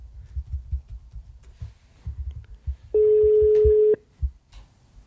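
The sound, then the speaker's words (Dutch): An outgoing phone call's ringback tone: a single steady, mid-pitched electronic hum lasting about one second, rising clearly above low background rumble and cutting off abruptly. “We gaan bellen met Martijn Meerdink, vader van Max Meerdink. Hopen dat hij opneemt.”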